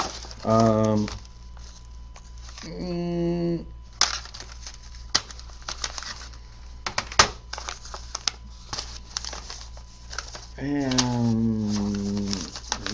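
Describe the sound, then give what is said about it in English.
Paper envelope being opened and handled, with a stamped return envelope among the mail: a run of irregular crackles and rustles, framed by voices at the start and the end. “they did include the self-addressed stamped return envelope”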